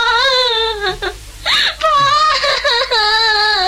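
A person cries in a drawn-out, wavering wail in a dramatic scene, grieving a friend who was shot dead. The high, quivering sobs break off briefly near the middle, then resume loudly until the end.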